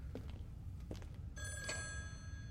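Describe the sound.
A telephone rings with a sustained bright bell tone that begins partway through and carries on to the end, faint over a low background hum.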